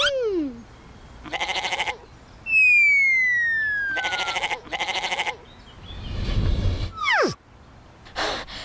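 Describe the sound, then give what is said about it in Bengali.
Goats bleat in a few wavering, nasal bursts: an escaped goat that may butt with its horns, after goats were set to fight. A long, falling whistle-like tone and a rushing noise also sound between the calls. “ছাগলটি ধরুন। আরে এই ছাগলটি শিং মারতে পারে।”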